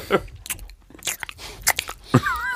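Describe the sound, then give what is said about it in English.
Chewing and biting on boxed Whitman's Sampler chocolates, with wet mouth smacking and several crunchy bites in an uneven rhythm, fairly loud throughout. “Somewhere there is a market for ASMR of people just smacking their mouths eating Whitman sampler.”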